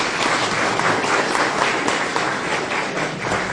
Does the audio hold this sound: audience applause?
yes